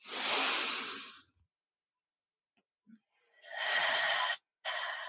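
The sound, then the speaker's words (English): Deep breathing in and out during a guided breathing exercise: long, airy rushes of breath, a quiet pause, then more steady breaths, with no talking. “Nurturing breath in. And nurturing breath out. Nice. Three more.”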